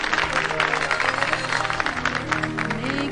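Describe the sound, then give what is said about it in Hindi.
An audience claps before a singer performs a requested song. Many claps form a steady patter over sustained musical tones. “आप सबकी पुरजोर फरमाइश पे ये गाना सुना रही है तो तालियां भी होनी चाहिए।”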